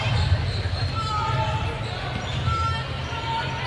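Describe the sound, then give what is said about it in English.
Basketballs dribbling on a court during a game in the third quarter: repeated bounces set in a dense wash of crowd noise. “Basketballs are dribbling behind me and it always scares me.”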